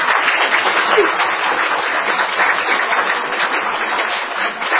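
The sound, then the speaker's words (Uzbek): Applause from an assembly audience after a closing speech, thick and continuous clapping at a steady, loud level throughout. “Yig'in sahnasining xulosa nutqini tamomlab, hayajon endi olqish sadolari ichida vakillar orasiga tushgan Robiya xonim ziyoratimizni qabul qildi.”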